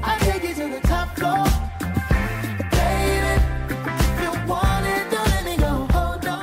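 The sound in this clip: A pop track plays with a steady beat, layered instruments and thick sustained harmonies, loud and continuous throughout with no talk over it.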